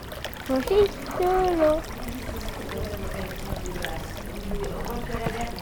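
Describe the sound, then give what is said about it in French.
Water trickles steadily throughout, a continuous fine splashing texture under people talking, with the voices clearest at the start and the water carrying on alone beneath quieter chatter. “c'est quoi que tu enregistres L'eau.”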